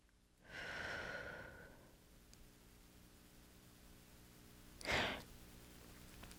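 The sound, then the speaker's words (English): A deep breath drawn in: a long, airy inhale lasting over a second, faint and alone. A shorter, sharper breath follows a few seconds later. “So now let us take a deep breath and breathe that in.”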